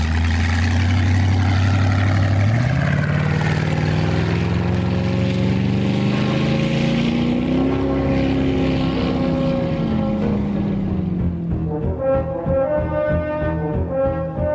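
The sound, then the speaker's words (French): A motorboat speeds away across the sea, its loud engine drone shifting upward early on and then gradually sinking in pitch as the sound thins toward the end. “Et le hors-bord s'est éloigné à toute vitesse sur la mer.”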